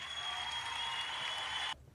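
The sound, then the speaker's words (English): Hands clapping in applause for a player after a basketball game. A dense, steady wash of clapping holds for under two seconds, then stops abruptly, with no talk. “Duncan Robinson, let's clap it up for him.”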